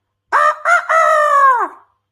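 A rooster's cock-a-doodle-doo crow, imitated by a person, sounds loud and alone in three parts: two short bursts, then a long held call that sags and fades at the end.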